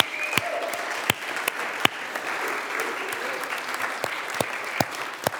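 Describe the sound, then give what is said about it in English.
An audience applauds a newly engaged couple at a church gathering, with steady clapping for several seconds and a few sharper claps nearby standing out from the mass. “So just give it up for Dan. Give us a wave.”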